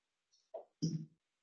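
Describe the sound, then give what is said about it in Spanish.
Chalk writing on a board during a math lecture makes a few faint, short scratchy strokes with silence around them, the last stroke longest and strongest. “Lo voy a escribir.”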